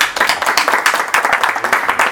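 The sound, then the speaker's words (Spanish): Audience applause for three poets at a book presentation, a steady wash of many hands clapping, moderately loud and continuous throughout with no talk over it. “primero un aplauso para los tres poetas que están aquí.”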